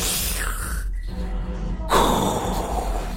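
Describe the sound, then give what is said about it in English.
A loud, forceful exhale of vape vapour, heard as a long, breathy hiss that breaks off briefly and then surges back stronger. “You really exhale, like, loud. Like, you're, like, geyser-like.”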